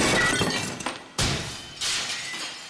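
Glass shatters into pieces in a few loud crashing bursts, each breaking into a bright, scattering spray of high tinkling shards that trails off before the next.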